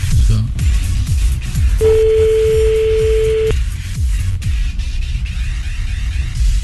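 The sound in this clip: A single long telephone ringing tone sounds as a call is redialled after the other side hung up. The tone is steady and mid-pitched, held for under two seconds over a loud, pulsing low background.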